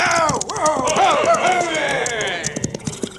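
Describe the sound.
Hoofbeats of a posse's horses galloping past on a canyon trail: a dense, rapid clip-clop of several horses, loud throughout and blended with other tonal sounds.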